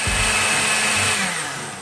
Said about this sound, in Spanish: Luego, cuando la mezcla comience a emulsionar, levantamos lentamente la licuadora hasta integrar todo.